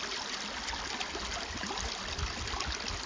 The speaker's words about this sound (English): You may be able to hear the little river where I'm sitting in the background.